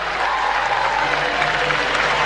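Stadium crowd applauding Barcelona as women's league champions, a dense, even wash of clapping from many hands that stays loud and steady without pause.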